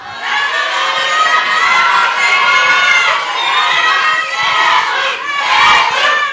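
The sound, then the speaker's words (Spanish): A studio crowd cheers on contestants in a quiz show, shouting and whooping continuously. The high, excited voices rise and fall in loud waves and finish with a brief extra surge. “Bueno, pues ahí escuchamos la porra. Hay bastante porra en esta ocasión.”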